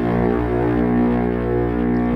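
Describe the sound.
A man hums a steady, low, buzzing tone, a rich sustained drone that stays loud and even throughout without breaks.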